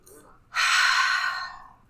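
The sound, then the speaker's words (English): A deep breath taken during a guided breathing moment: one long, loud, airy rush that starts after a short quiet pause, then holds steady and slowly fades toward the end. “Taking a deep breath in.”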